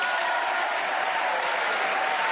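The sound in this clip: Audience applause welcoming four panelists onto a comedy panel game show, a dense, even wash of many hands clapping steadily throughout, with no voices over it.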